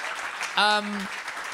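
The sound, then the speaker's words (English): Audience applause as a crowd claps for itself at a live show: a steady patter of hands, briefly overlaid by a loud sustained vocal shout in the middle. “Give yourselves a round of applause. Truly, and that applause is for you.”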